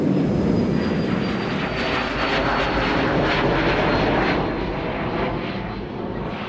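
An airplane taking off gives a loud, continuous engine roar that stays dense and steady throughout, with a thin high whine running through it and no talk.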